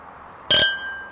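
Glasses clink once in a drinking toast: one sharp, bright strike whose high ringing tone lingers and slowly fades, with no other sounds around it.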